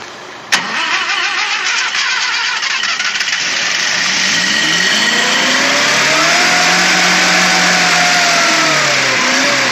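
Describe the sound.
A car engine starts with a sharp burst, then runs loudly with a broad roar before revving up, its pitch climbing and then holding steady near the end.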